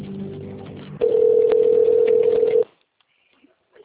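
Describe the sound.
A telephone ringback tone plays while a call is transferred: one steady, mid-pitched beep that holds for about a second and a half over a faint line hiss, then cuts off into near silence.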